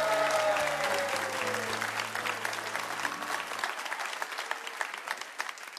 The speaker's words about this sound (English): I am going to say that you all need to give yourselves a huge hand because you are indeed a fabulous audience.